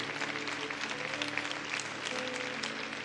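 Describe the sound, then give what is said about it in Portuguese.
Applause from a church audience: a continuous wash of many hands clapping at once, steady and fairly soft, with no pauses over the short stretch. “Vamos dar uma salva de palmas ao Senhor.”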